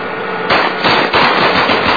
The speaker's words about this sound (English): shoot up the vehicle